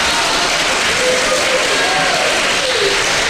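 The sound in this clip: Clapping from the audience at a Beijing comedy crosstalk show blends into a loud, constant wash of applause. Faint voices sound through it.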